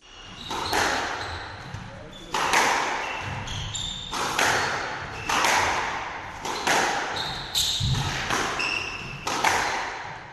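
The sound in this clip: A squash ball thuds at an international squash league match at the Shahnawaz squash complex in Quetta, Balochistan. Many sharp, hollow impacts repeat every second or two, and short high squeaks sound between them.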